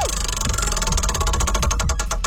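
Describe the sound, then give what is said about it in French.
A prize wheel spinning on a game segment: a run of rapid, evenly repeating clicks that spread farther apart toward the end as the wheel slows, over a steady low hum. “On va te faire tourner une roue. Il y a plein de prix que tu pourrais gagner.”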